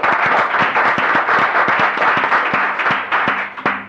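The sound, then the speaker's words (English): Applause in a Senate chamber welcoming guests, a modest group clapping steadily with many individual claps standing out sharply, thinning slightly near the end. “Please help me welcome them to the Senate.”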